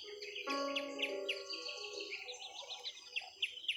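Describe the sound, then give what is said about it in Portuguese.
Birds singing, with many quick chirps and short trilled phrases overlapping at a fairly quiet level, some calls repeating in rapid bursts near the end. “Deixe o som dos animais, dos pássaros cantando, irem lhe levando para o seu lugar seguro.”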